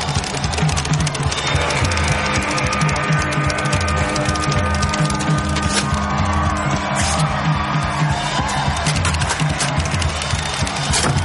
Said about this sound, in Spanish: En el teatro la mayor parte del público anima a la estadounidense que se muestra cada vez más nerviosa.